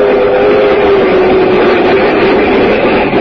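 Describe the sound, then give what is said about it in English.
A commuter train with a smoking car runs along the rails, giving a dense, steady rumble with a faint sustained hum running through it. No voices are heard. “I used to ride the commuting train to my job in the city, and I got to know all the regular commuters who rode in the same smoking car.”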